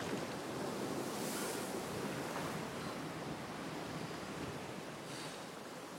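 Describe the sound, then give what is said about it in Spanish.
Ocean waves break around a person stranded in the open sea, a loud, steady, rushing wash of surf with no voices. “Las olas rompen a su alrededor.”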